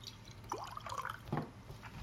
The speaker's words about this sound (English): And I get to pour it.